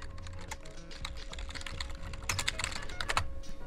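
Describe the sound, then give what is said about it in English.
Typing on a computer keyboard: many quiet, rapid key taps in an uneven rhythm, with a few louder bursts near the end, over a faint steady hum. “That's the sound of me typing.”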